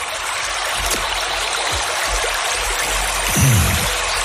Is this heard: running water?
yes